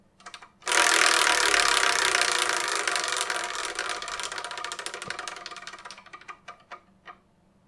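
A prize wheel spins to pick a number: a loud, sustained rattling whir that gradually fades, ending in a few separate slowing clicks as the wheel comes to rest.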